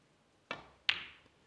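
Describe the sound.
Two crisp clicks of snooker balls at the World Snooker Championship: the cue strikes the cue ball, then the cue ball hits a red that goes into the pocket, followed by a faint knock.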